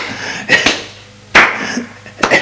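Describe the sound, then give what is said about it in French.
Repeated slaps land on a body: a few loud, sharp smacks come at irregular intervals, some in quick pairs, with quieter rustling between them. “Elle continue à lui donner des gifles de partout sur le corps.”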